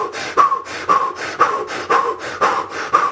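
Rapid, forceful breaths from a breathing exercise, with the stomach pulsing on each breath, repeat in a steady, even rhythm of about one breath every half second, loud and breathy with no talk.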